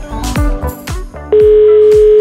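Telephone ringback tone on an outgoing call placed to a listener during a radio program: a few soft thuds come first, then a steady, loud single-pitched tone starts partway through and holds unbroken to the end, with no talk.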